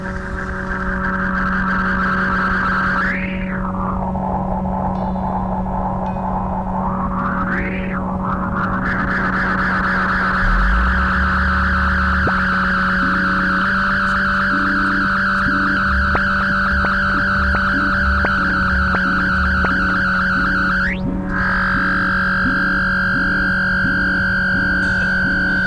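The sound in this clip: Electronic tones from a weather-driven synthesizer that turns precipitation, sunlight, wind and temperature changes into sound: layered steady drones with a few swooping pitch glides, later joined by a rhythmic pulsing low pattern, with no voices.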